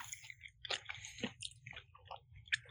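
Chewing summer sausage: a quiet run of irregular, moist, squishy bites and soft crunches with no talking.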